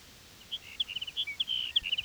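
Sage sparrow song from a nesting colony: a faint run of many short, high, twittering notes in quick, uneven bursts, with no voices.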